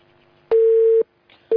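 A telephone call signal sounds as a steady, mid-pitched electronic tone in on-off pulses. There is one full half-second beep, a pause, then a second beep that begins as the sound ends.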